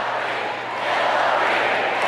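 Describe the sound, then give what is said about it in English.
A convention crowd chanting for Hillary, heard as a dense, continuous roar of many voices that stays loud and steady throughout. “the reason that people start chanting Hillary here, we can stop it there. The reason people start chanting Hillary is because the Bernie people are booing her.”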